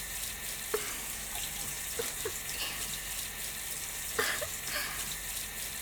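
Hot water runs from a tap in a soft, steady, hissing stream, with a few faint splashes and drips.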